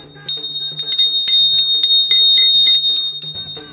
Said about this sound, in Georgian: სხვანაირად ჟღერს ეს ზარები პირდაპირ ეთერში და ალბათ მიხვდით მეგობრებო ზარების კოლექცია.